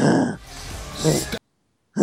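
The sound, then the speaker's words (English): Heavy breathing imitated by a man's voice, mocking a wrestler's silent reply to a post-match interviewer: a loud, breathy rush lasting over a second, then a pause before another breath begins. “he literally is just breathing in and out really heavily”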